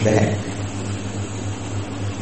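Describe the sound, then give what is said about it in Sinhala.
An electric fan runs with a steady, even whirring hum and a low tonal drone; a voice is heard briefly at the start. “සද්ද ඇහෙනවනේ fan එකේ සද්ද ඇහෙනවා නේද?”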